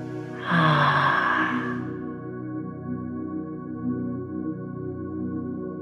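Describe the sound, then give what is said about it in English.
A deep breath in during a relaxation meditation, drawn slowly as an airy rush over a steady, calm drone of sustained tones that continues alone once the breath fades. “Let's start living one of those beautiful moments with a deep breath in. And on the exhale,”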